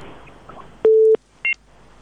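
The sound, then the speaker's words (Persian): Telephone line tones sound as a caller is connected: a single steady mid-pitched tone lasting about a third of a second, then a short, higher two-note beep, over faint hiss. “یک تماس دیگر هم میگیریم”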